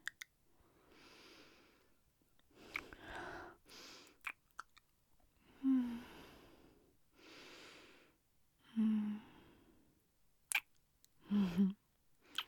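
Wet licking and sucking sounds as someone licks their fingers clean, a series of short, moist mouth bursts with a few brief low hums between them.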